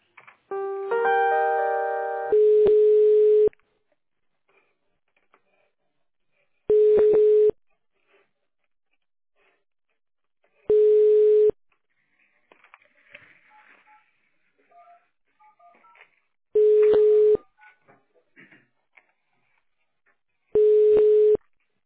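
Telephone ringback tones play while a call is being transferred: five long, steady low-pitched beeps repeat about every four seconds, with near silence and faint scattered noises between them.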